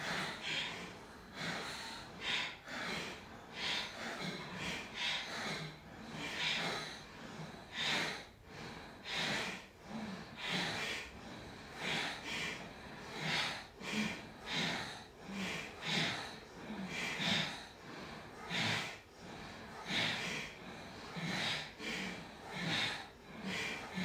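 Bhastrika, a forceful yogic breathing practice, done during a yoga session. Many sharp, noisy breaths come in a rapid rhythmic series, each one a strong rush of air that rises and falls throughout.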